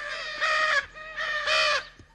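Hyacinth macaws calling on a farm where corn cobs are tied to trees for them: two loud, harsh, drawn-out squawks with rich raspy overtones, separated by a fainter, shorter call.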